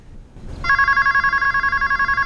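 A telephone starts ringing after a brief quiet moment, a bright electronic bell tone with a fast, even warble that continues steadily to the end.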